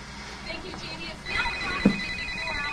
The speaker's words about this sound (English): answers the phone